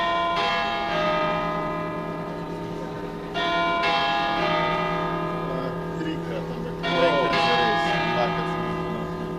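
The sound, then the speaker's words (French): A bell rings at the University of Ljubljana to signal that classes are resuming. Sustained ringing tones are renewed by fresh strikes, while people talk over the ringing. “L'heure a sonné, les cours reprennent.”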